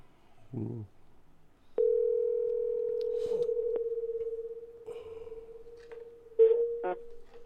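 A telephone dial tone while a number is dialled: a steady, continuous tone that holds for several seconds, broken near the end by a few short clicks and tone bursts.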